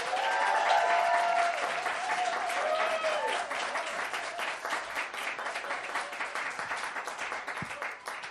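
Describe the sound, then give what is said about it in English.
An audience at a debate event claps and cheers to vote for a winner. Dense, steady applause holds for several seconds with a few raised voices near the start, then thins slightly toward the end. “If you think the winner should be Tom, make some noise.”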